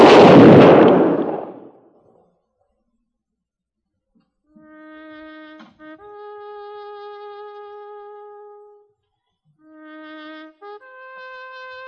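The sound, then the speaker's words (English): A single loud rifle volley fired in a military ceremony at Fort Laramie, a sharp burst that fades out over about two seconds, followed after a pause by sustained, horn-like notes. “Ready? Aim. Fire.”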